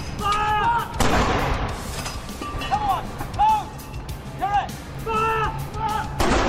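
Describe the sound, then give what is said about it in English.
Two heavy booms from a royal salute fired by century-old First World War field guns of a mounted ceremonial troop. Each deep, loud blast rolls out and decays, with quieter outdoor sounds in between. “It's their job to fire royal salutes on royal anniversaries and state occasions like birthdays and funerals. What's a royal salute? Well, it's kind of like this.”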